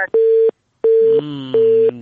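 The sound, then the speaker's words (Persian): A busy tone sounds after a phone call is cut off: three loud, steady beeps with short pauses, and a low droning tone underneath the last two. “دومین تماس است که قطع شد.”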